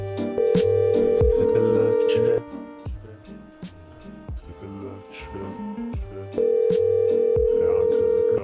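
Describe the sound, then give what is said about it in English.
Ringback tone of an outgoing phone call that goes unanswered: two long, steady electronic rings, each about two seconds, separated by a pause of about four seconds, over a busy background of tonal sound. “I bet she's not even answering the phone right now, anyway.”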